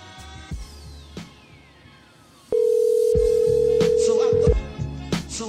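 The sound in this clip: Ringback tone of an outgoing telephone call: one loud, steady electronic tone sounding for about two seconds, with softer, broken sounds before and after it.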